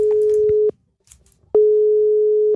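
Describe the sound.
Telephone call tone on an outgoing call, heard as two long, steady low beeps, the first cut off at the start and the second lasting about a second, separated by a gap of faint noise, with no talk.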